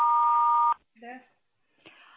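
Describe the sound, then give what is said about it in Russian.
Voicemail beep before a message is recorded: one steady mid-pitched tone lasting under a second, then a voice begins talking. “Если вы хотите оставить ему голосовое сообщение, пожалуйста, говорите после звукового сигнала.”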